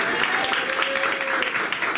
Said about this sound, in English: please give a round of applause for Larice Marier, our show producer.